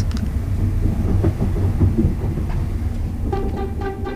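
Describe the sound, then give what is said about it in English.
A train pulls into London Paddington station with a steady, heavy low rumble and rattle, and a higher tonal whine joins near the end. “Well, the train is pulling into London Paddington right now, and the time is 5:40.”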